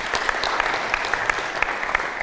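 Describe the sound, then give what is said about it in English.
Audience applause: a dense, steady patter of many hands clapping throughout, with no voices. “give these people a clap. This is fantastic.”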